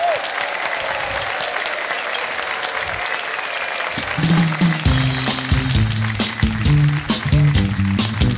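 Audience applause welcoming performers at a live show, a steady wash of clapping and cheers that carries on as a band begins playing underneath toward the end.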